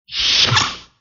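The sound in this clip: A single airy whoosh of sliding doors opening on a starship in the original science-fiction series, swelling and fading away within about a second, alone and with no other sounds.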